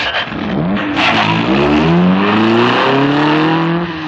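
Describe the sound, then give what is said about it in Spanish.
A car engine running and revving: a loud, continuous drone whose pitch climbs steadily as the engine speeds up, with no voices. “ha puesto en marcha el motor, pero todavía duda”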